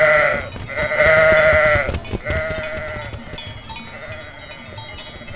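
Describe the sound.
Sheep bleat on a farm where goats wearing cowbells are also kept: a few loud, wavering, harmonic bleats sound alone, with other animal noise around them.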